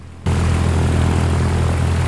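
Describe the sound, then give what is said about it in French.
Propeller engine of a Cessna 152 light aircraft at Arcachon, a loud, steady, low droning roar that starts abruptly after a quarter second and holds evenly to the end. “Je vous propose de survoler le bassin d'Arcachon dans un avion que l'on appelle un Cessna 152.”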